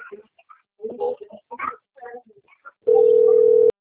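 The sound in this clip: Telephone dial tone while a call is placed: a steady, continuous mid-pitched hum of nearly one second, heard alone right after a stretch of speech.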